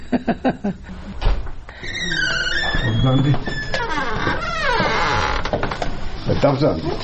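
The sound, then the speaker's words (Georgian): A room door creaks in a care home for the elderly. The squeal is long and drawn out, its pitch wavering up and down for several seconds, after a few short, sharper knocks at the start. “ოთახის კარი ჭრიალებს”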